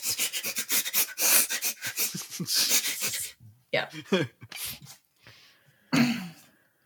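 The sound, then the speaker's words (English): A person sniffs like a bloodhound in imitation: many quick, rhythmic sniffs in a rapid run, followed by a few scattered sniffs and some talking. “Like I'm a little bloodhound for fan fiction. That's me sniffing. That's me sniffing the corners of the internet.”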